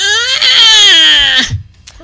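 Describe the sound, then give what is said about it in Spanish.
A man's voice imitates a baby crying, one loud, drawn-out wail that slides steadily downward in pitch for about a second and a half, then breaks off into a few faint sounds. “Y el güey grita como un bebé, así.”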